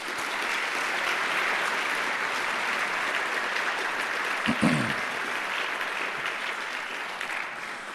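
An audience applauds Journey Award winners at a Martin Luther King Day celebration with a dense, steady clatter of clapping that holds evenly throughout, marked by a brief thump near the middle.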